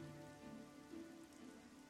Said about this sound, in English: I could have gotten a better look up deck, but it's a little hard to see through the rain happening.